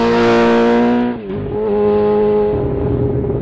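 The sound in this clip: A motorcycle engine runs in a repair shop while it is being fixed, giving a loud, steady harmonic drone that dips briefly in the middle and then settles back to an even idle, with no voices.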